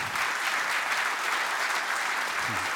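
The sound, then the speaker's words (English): Audience applause welcoming speakers to the stage at a church gathering: loud, dense, continuous clapping that holds at an even level from start to finish. “Put your hands together. Welcome these guys.”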